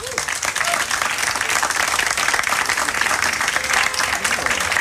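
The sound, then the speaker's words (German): Welcome applause from an audience greeting an author at a book discussion event, a thick, continuous clatter of clapping that remains loud and steady for the whole stretch. “Und dazu sage ich herzlich willkommen und bitte Sie um einen Begrüßungsapplaus für Nora Eckert.”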